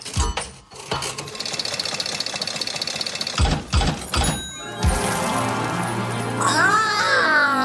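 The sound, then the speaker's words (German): A lever is pulled on a question machine: a loud mechanical rattle whirrs steadily with a few clunks, then gives way to an electronic jingle of bright, warbling tones. “Dann ziehe ich mal hier in dieser Maschine.”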